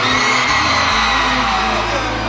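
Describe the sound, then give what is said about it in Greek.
An audience screams and cheers on cue: a dense, loud wall of shrieks and yells that holds steady throughout without a break. “Για ρίξτε μια τσιρίδα να ακούσω.”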